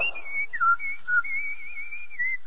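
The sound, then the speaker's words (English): A person whistles a tune alone: a clear, fairly high melody with wavering pitch, small slides between notes and a few brief breaks, played at a moderate, even level. “No wonder he's whistling.”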